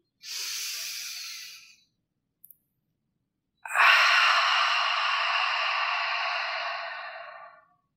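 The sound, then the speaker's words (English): Two airy breaths are taken during a guided breathing exercise. A short one is followed after a pause by a long, slow, steady breath that fades out softly. “So, let's exhale first to let out any stale air. Go ahead, breathe in.”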